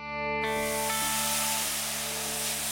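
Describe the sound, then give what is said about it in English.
Sizzling from a backyard barbecue grill bursts in abruptly and continues as a steady, bright hiss over sustained tones. “Today, we're following our nose to the backyard where we fired up the barbecue grill.”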